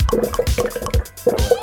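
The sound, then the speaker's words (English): Olive oil glugging out of an upturned jug onto a board, a rapid, irregular run of wet gulps and splashes that falters briefly before resuming. “I'm pouring. The olive oil's getting everywhere on the board.”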